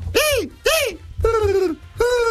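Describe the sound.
A human voice imitates a pigeon cooing with four voiced coos: two short calls that arch up and down in pitch, then two longer, flatter ones.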